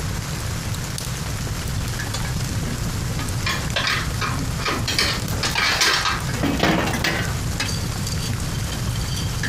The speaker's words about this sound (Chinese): 屋里是挺冷的，我把炉子再通暖和一点。